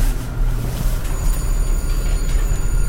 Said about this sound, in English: We're on the train. So I'll sit on the right side of the train here.